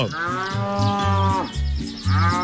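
Cattle mooing during early morning milking: a few drawn-out, low bellowing moos in close succession, loud and clear with no talk.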